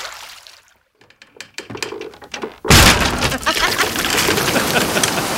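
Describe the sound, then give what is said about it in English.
Wind and a stormy sea, a sound effect of fishermen out in boats: a few sharp knocks over near silence, then a sudden loud, roaring rush of noise that carries on to the end. “I just heard the wind. This is the full sound.”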